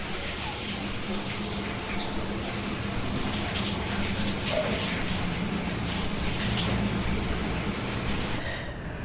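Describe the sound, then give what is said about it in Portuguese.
A shower runs behind a shower curtain: a steady, dense hiss of falling water, continuous and even in level, that thins out abruptly just before the end. “Silhueta de Glória tomando banho na cortina do box.”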